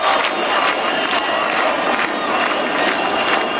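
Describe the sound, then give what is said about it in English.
Crowd at a nightly protest against a luxury property and holiday resort development on Albania's Mediterranean coast: a continuous, dense roar of many voices that stays loud throughout. “plans for a huge new development of luxury properties and a holiday resort there have sparked nightly protests. We heard some of the sound of one of them there.”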